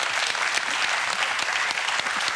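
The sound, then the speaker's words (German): Studio audience applause at a quiz duel greets a helper arriving on set. The clapping is dense and steady, with a uniform wash of hand claps at full level throughout. “Großen Applaus für Basti.”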